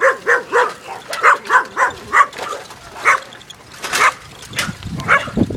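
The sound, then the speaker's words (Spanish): Dogs barking in a rapid, uneven run of many loud, sharp barks with some higher yips mixed in, continuing with only brief gaps. “Están al aire estos perros. ¡Cállese que estamos grabando!”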